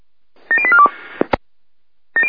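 A telephone number is dialled on a keypad, giving a quick run of bright, clear beeping tones, then a couple of sharp clicks and another fast burst of tones.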